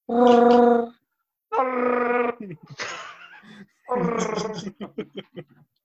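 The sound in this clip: A voice imitating Chewbacca's roar from Star Wars: a few long, raspy, harmonic yowls separated by pauses, ending in a run of short, choppy vocal bursts.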